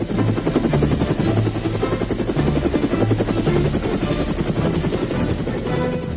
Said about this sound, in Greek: Ελικόπτερα GAP4, γιατί η ιστορία έχει ήχο.